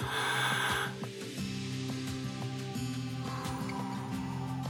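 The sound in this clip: A deep breath taken during a guided prayer breathing exercise, one breathy rush lasting under a second, then soft sustained keyboard tones continuing underneath.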